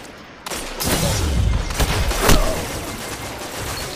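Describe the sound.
Automatic weapon fire in the video game Destiny 2, triggered through a controller mod: loud rapid bursts of shots over a dense, continuous roar.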